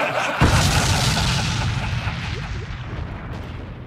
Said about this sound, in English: I didn't risk my life going to the West Bank not to blow these firecrackers.